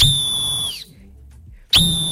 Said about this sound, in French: J'ai mon coup de sifflet, hein, donc forcément, les amis.